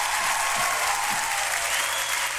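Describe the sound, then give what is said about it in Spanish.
An audience applauds in a steady, even wash of clapping that stays fairly loud from start to finish. “Así que démosle un aplauso a todas las Esther.”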